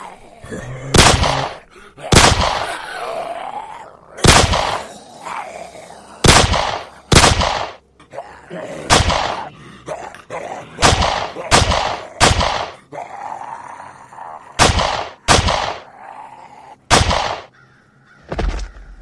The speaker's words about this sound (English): Damn, that was loud. My aim is really slipping. 12 shots, 5 kills?